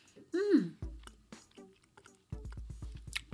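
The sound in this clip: Someone chews a jelly gummy candy with a quiet series of soft, moist squelching bites in a regular rhythm, after a brief hummed vocal sound.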